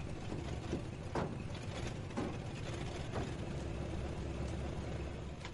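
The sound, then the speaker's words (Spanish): A van's engine running: a steady, dense mechanical rumble with a few faint clicks and rattles and no speech. “Daniel se sube a la parte trasera. La furgoneta se pone en marcha.”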